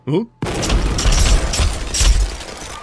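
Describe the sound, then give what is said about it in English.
A thrown grenade exploding: a brief vocal sound cuts off, then a loud, sustained burst of rumbling blast noise with a few deep booms rolls on. “You got to throw a night grenade.”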